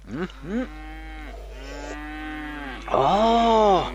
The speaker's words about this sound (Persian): خانسه صدای گومیش؟ ای گومیشتانم خوب شیر خواد داد